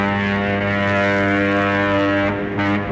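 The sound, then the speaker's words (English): Hydroplane racing boats make a loud, steady engine roar with a strong droning, harmonic tone that holds even and dips slightly near the end. “It's a lot of other things, too. Hydroplane racing.”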